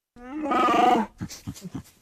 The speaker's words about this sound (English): That is the sound of beloved character Chewbacca from the Star Wars franchise.